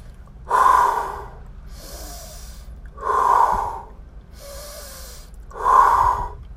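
Three deep, loud breaths come in a slow, even rhythm, each a full rushing swell of air separated by quiet gaps. They are part of a calming exercise before making a decision.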